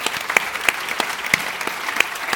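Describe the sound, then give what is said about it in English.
Applause from an audience at a prize-related talk: steady, dense clapping with brisk irregular claps standing out, a moderately loud continuous patter with no voices on top. “thank Fia Meta publicly and give her a round of applause”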